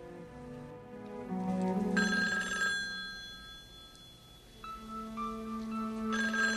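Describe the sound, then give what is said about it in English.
A telephone rings with bright, tonal electronic tones that repeat at a moderate level throughout, with no talking. “He goes to answer the phone.”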